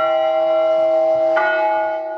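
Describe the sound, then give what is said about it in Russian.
Church bells ring during a divine liturgy at a city-day celebration in Rostov, a loud, sustained metallic tone that swells again with a fresh strike partway through before slowly fading at the end. “все это на фоне божественной литургии и звона колоколов вновь подарило городу настоящий праздник”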